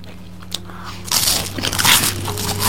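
Crunchy vanilla-flavoured wafer cookie snack being bitten and chewed, with a quiet start followed by many dense, crackly crunches that keep going to the end.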